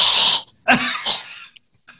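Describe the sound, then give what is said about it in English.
A person vocally imitates a cat hacking up a hairball: a few harsh, raspy throat-clearing coughs in quick succession. A rough hiss comes first, then deeper, strained hacks, ending with a faint short catch. “because it's hung in the back of his throat. Like a cat trying to hack up a hairball.”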